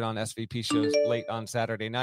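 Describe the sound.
A brief computer alert chime rings out mid-sentence, its bright tones sounding under continuous speech.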